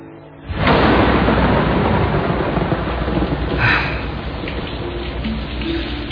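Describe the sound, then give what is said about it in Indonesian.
Heavy rain with rolling thunder: a sudden swell into a loud, steady, hissing roar that holds throughout, with a brief surge partway through before settling back. “hujannya semakin membesar. Belum lagi petir yang menggelegar dan menyeramkan.”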